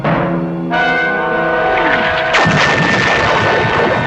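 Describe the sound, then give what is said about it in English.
A missile detonating with powerful blasts: a sudden loud booming burst, then a second, harsher blast about one and a half seconds later, both trailing into a sustained, rumbling roar. “When the missile explodes, we're shown the Jupiter 2 being violently buffeted by powerful blasts from the weapon's detonation.”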